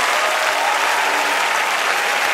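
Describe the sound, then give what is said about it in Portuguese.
An audience at a church service claps loudly and continuously, giving a thick, unbroken wash of many hands that holds at an even level for about two seconds. “Aleluia, vamos aplaudir ao Senhor Jesus.”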